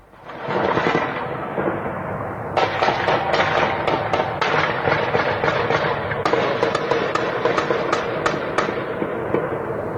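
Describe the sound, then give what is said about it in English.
Gunfire in a street gun battle in Sumy, Ukraine: many sharp, cracking shots in rapid, irregular bursts over a continuous loud rumble, sustained throughout. “Ukraine's military has posted footage on social media of what it says is a street gun battle in the northeastern city of Sumy.”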